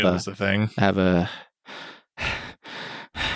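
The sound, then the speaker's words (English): A man breathes heavily after a short burst of speech, four loud, rough breaths in a steady rhythm with brief silent gaps between them. “Stop breathing like that.”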